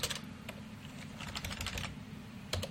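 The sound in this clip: Computer keyboard keys pressed in quick, irregular bursts of clicks while working in a program and hitting the F5 key, fairly quiet over a low background hum.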